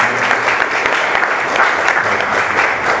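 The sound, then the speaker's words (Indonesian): Audience applause closing the IndoProgress journal launch at GIM Bandung, given for the panel members. Brief, steady and dense clapping from a crowd, fairly loud and even throughout, with no talk over it. “Boleh aplaus dulu untuk teman-teman.”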